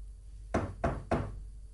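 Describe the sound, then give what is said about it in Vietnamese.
Knocking on a door, three sharp evenly spaced knocks, fairly faint, over a low steady hum, with no voices. “Ngoài cửa vang lên tiếng đập.”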